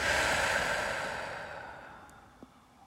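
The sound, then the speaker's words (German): A slow, relaxed exhale during a guided breathing exercise: a soft, breathy rush that starts fairly full and fades gradually over a couple of seconds, with no talking. “Und gleich noch einmal tief einatmen und gelöst ausatmen.”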